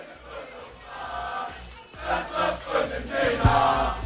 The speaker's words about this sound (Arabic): هذا الجمهور اللي يتوالى ويغني، هذا الجمهور اللي يتوالى قاعد يغني في الديركت.